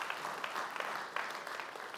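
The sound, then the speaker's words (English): Audience clapping from a church audience, a dense, steady crackle of many hands held at an even, fairly faint level with no talking over it. “You can clap for that.”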